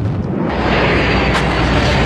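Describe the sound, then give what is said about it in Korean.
Fireworks exploding over Washington, DC in the night sky during an Independence Day show: a loud, dense, unbroken roar of overlapping booms and crackles with no single distinct blast standing out. “형형색색의 불꽃들이 미국 워싱턴 DC의 밤하늘을 수놓습니다. 40도에 이른 폭염과 비바람에도 시민들은 85만 발의 폭죽쇼에 환호하며”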